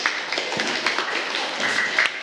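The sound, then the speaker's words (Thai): Classmates clapping for a fellow student in a school classroom: a dense, steady patter of many hands that holds at an even level for about two seconds. “แบบนี้ได้นะครับถือว่าเหมาะสมปรบมือเพื่อนหน่อย”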